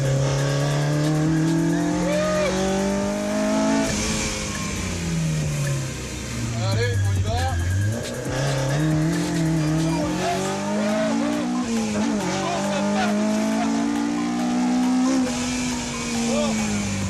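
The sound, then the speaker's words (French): A Mini driven hard on the Ouest parisien racing circuit at Dreux: a loud, continuous engine note that rises and falls in pitch as it revs and slows, with tires squealing through the corners. “de l'Ouest parisien à Dreux, juste histoire de chercher les limites de cette mini. Qu'est-ce que ça marche ? Alors là, on est sur le circuit de l'Ouest parisien, on va pouvoir se lâcher un peu”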